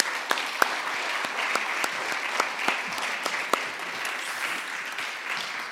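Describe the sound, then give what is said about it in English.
Audience applause welcoming two guests onto a church stage: steady, even clapping from many hands, with a few sharper individual claps standing out. “So I'm going to invite Rich and Ness to come up with me onto the stage. Let's just welcome them, shall we, again?”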